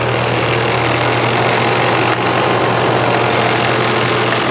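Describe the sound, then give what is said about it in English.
Fast industrial sewing machine rated at about 6,000 stitches per minute, running at full speed with the pedal pressed all the way down: a loud, steady, unbroken mechanical whir with a constant low hum underneath. “This is one of the fastest sewing machines made. I think it comes out to 6,000 stitches per minute. But brilliant machine, obviously miles and miles of sewing done on it”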